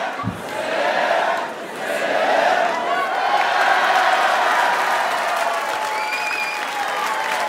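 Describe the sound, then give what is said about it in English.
A live show audience applauds and cheers for several seconds. The clapping is dense and steady, mixed with whoops and shouts, and stays loud throughout with no clear speech. “This is the most supportive crowd. They'll chant even in moderation.”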